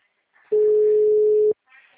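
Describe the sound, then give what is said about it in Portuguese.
A steady ringback tone on an outgoing phone call sounds as one mid-pitched burst lasting about a second, with only faint noise just before and after. “Acabou de falar que não pode receber chamada e tá chamando.”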